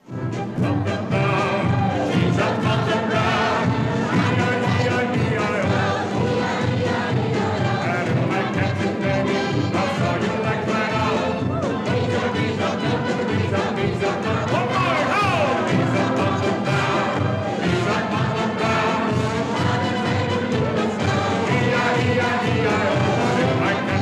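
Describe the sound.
An audience sings an old music-hall number at the old Metropolitan on Edgware Road, a loud, continuous, dense chorus of massed voices with steady accompaniment that never drops out.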